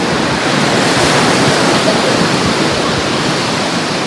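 Ocean waves wash onto a beach where baby sea turtles are heading into the water. A loud, steady, rushing wash of surf continues without distinct breaks, and no voices can be heard.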